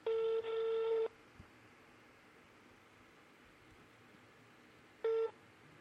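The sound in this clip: Telephone call tones: a beeping tone lasting about a second, briefly broken partway through, then a long near-silent pause before one short final beep, all faint against a soft hiss.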